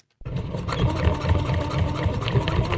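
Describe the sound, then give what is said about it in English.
A sewing machine runs while someone makes homemade face masks. It starts abruptly, then whirs steadily with a quick, rhythmic low pulsing that holds at an even loudness. “are turning on their sewing machines to make their own masks”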